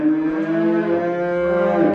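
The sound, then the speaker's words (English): Cows mooing: one long, low, droning moo holds steady for about two seconds with no other sound over it. “Cows mooing would be good.”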